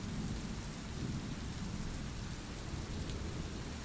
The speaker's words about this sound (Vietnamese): rồi biến mất theo tiếng mưa ầm ầm dội vào mái nhà.